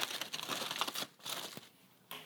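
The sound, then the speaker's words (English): Aluminium foil crinkles as it is opened from around rested smoked meat for burnt ends, ready to go onto a cutting board. Many soft, faint rustles and crackles continue unevenly, with no talk over them. “now that the meat's rested for about half an hour, we're gonna open up the foil and place it on the cutting board.”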